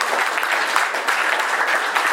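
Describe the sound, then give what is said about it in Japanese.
An audience gives a lecturer a big round of applause at the close of a public lecture. The dense, even clapping stays loud and continuous throughout. “もう一度益子輝夫講師にですね、盛大な拍手をお願いいたします。”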